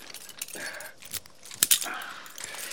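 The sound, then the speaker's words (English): Keys jangle as they are held up and offered over, with a few short metallic jingling bursts that cluster near the middle, fairly faint against quiet surroundings. “Toomey holds up the keys. She grins and offers them to Andy.”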